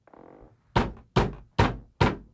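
Knocking on a door: four loud, sharp raps spaced evenly, each ending abruptly, after a brief muffled low rumble.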